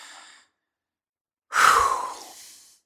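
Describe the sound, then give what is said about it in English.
A deep breath drawn audibly by a person: a faint breathy trail fades out at the start, then after a pause one long, airy rush swells quickly and slowly tapers away, with no talking. “As I take a deep breath now.”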